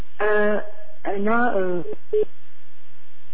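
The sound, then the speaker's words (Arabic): Telephone line cutting off during a radio call-in: a few clipped, distorted voice-like bursts, then a short beep and a faint, low intermittent hum. “نعتذر نقطع الخط. يا ريت ناخذ الاتصال مرة ثانية.”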